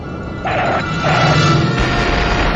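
Phaser fire in a starship video game: buzzing, tonal energy-weapon bursts over a constant noisy electronic hum. Two short bursts are followed by a longer, louder sustained blast.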